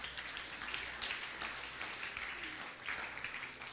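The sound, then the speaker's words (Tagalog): A church audience applauds in praise of the Lord during a service, producing a faint, steady wash of clapping that continues evenly throughout. “Palakpakan po natin si Lord.”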